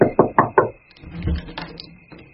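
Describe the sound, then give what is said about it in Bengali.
Four quick, sharp knocks on a room door sound in a tight rhythm at the start, then give way to faint, low background sounds. “দাদা হঠাৎ ঘরের দরজায় টোকা দিলেন।”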